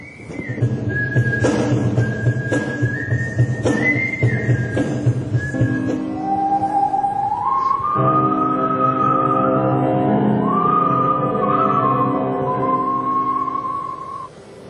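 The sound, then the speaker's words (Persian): Melodic human whistling by performers at a whistlers' gathering in Japan: a clear, loud tune that moves through sustained notes, leaps and trills, steady from start to finish. “اولین گرده همایی نوازندگان سوت در ژاپن”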